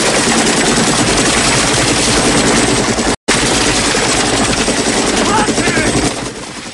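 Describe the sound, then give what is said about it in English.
Helicopter rotor roar from the Rambo film as the chopper's gunner fires on a river, with gunfire mixed into a dense, loud, steady drone that breaks off for an instant midway before continuing. “Yushin studies the water from the chopper. He signals his gunner. Bullets riddle the river, sending plumes of water into the air.”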